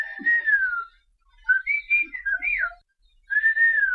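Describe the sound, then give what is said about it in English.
Whistled speech, a whistled language: clear, high whistles that glide up and down in three phrase-like runs, separated by short silences. “Whistled languages exist all around the world. They help people communicate over long distances, far longer than you could reach with words. A good whistler in the right conditions can talk to someone up to 3 miles away.”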